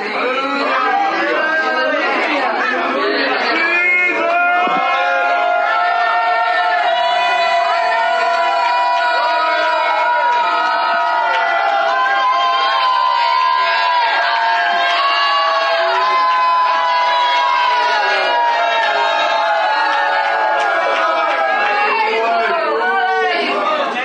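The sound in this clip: An audience shouts and cheers loudly and without pause for the whole stretch, with many excited voices and whoops in a dense, roaring wall of crowd noise.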